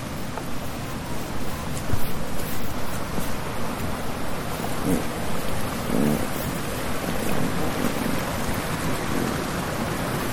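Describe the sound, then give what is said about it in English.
Steady rain from a passing storm falls during a trip, a dense, even hiss that continues throughout without clear single drops standing out. “These storms are kind of cool. They make the trip more exciting.”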